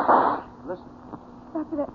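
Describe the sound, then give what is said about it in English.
A single gunshot in a radio drama, a sharp, loud burst right at the start, followed by quieter voices talking. “that must be Chris firing that gun.”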